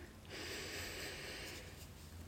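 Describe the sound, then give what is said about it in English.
A slow, deep breath taken during a relaxation exercise, very faint, a single long airy draw lasting about a second with nothing else over it. “So taking a deep breath in”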